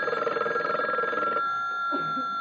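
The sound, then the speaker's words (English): A telephone bell rings in a rapid, rattling trill for about a second and a half, then stops, leaving only a faint steady hum. “I've picked up the phone. It's rung. I've answered it. And nobody's been there.”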